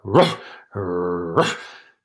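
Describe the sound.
Dog growling and barking: a sharp bark-like burst, a sustained low rumbling growl, then a second burst, all fairly loud and with no talk over them.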